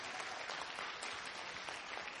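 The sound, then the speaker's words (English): An audience claps its hands during a church sermon, a faint, continuous patter of many hands that holds an even level throughout, with no voice over it. “Come on and clap your hands.”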